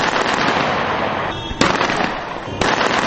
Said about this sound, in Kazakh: Ливия билігінің өкілдері бұл оқшашуларды Каддафидің жақтастары мұнайлы Расланауф қаласына бақылауды қайта алғанын тойлап атқылады деді.